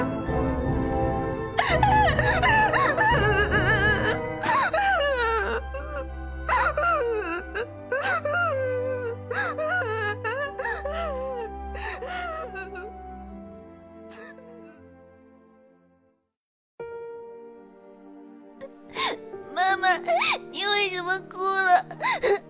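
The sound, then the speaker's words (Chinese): A man wails and sobs loudly with his head on someone's shoulder. The drawn-out cries waver in pitch over a low sustained drone, pause briefly, then return as sharper, higher bursts of crying. “然后泪水像断了线的珠子不断落下，接着伏在我的肩膀上，嚎啕大哭起来。”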